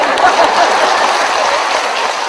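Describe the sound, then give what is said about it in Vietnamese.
Audience applause at a Vietnamese comedy sketch stage show: dense, steady clapping that stays loud and even across the whole stretch without pausing. “Chưa có hết mà vỗ tay cái gì.”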